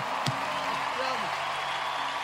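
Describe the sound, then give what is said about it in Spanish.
An audience applauds during an evening church worship service: dense, steady clapping that fills the whole stretch, with a voice heard over it. “Dale ese aplauso al Espíritu Santo en esa noche. Dáselo con fuerza.”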